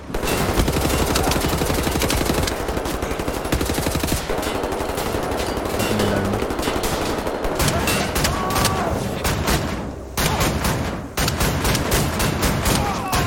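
Gunfire in the video game Wolfenstein: The New Order as the player uses a shotgun. Dense, rapid volleys of shots run almost unbroken throughout, with a faint tonal layer underneath.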